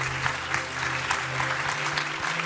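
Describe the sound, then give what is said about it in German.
Audience applause at a church service greets a speaker coming up. Dense, steady clapping from many hands continues throughout over a faint low hum. “Geben wir ihm einen Applaus.”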